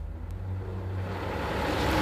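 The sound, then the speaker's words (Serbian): The low engine rumble of a bus crawling slowly through a still-sleeping town at dawn: a deep, steady drone that grows slightly louder toward the end, with no voices. “Autobus i nezdravo svitanje evo najzad zajedno puze kroz još usnulu varoš.”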